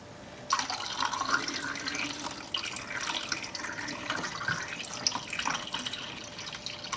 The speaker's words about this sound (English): This is the final wash.